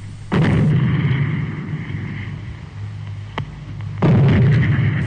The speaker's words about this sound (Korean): 사천 군대가 지키고 있는 영봉정의 검은 기둥 세 개가 치솟더니 종 박격포 소리가 묵직하게 울리었다.